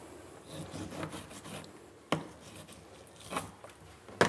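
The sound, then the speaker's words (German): A knife cuts healthy food into not-too-small pieces for an egg-shaped raccoon puzzle toy, giving a soft rasping, scraping texture with a few sharp knocks standing out. No voices. “Und dann nicht zu kleine Stückchen, damit die halt ein bisschen was zu tun haben, wenn sie es rausziehen. Damit es halt nicht alles gleich rausfällt. Und das schneide ich jetzt mal eben zurecht.”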